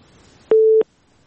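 A single telephone line tone as a caller is put through on a phone-in line: one steady, mid-pitched beep lasting about a third of a second, heard alone with no talk.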